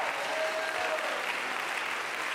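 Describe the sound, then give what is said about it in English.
Church audience clapping their hands together in praise, a dense, continuous wash of claps at an even, fairly loud level throughout. “Clap your hands to him. Bless his name.”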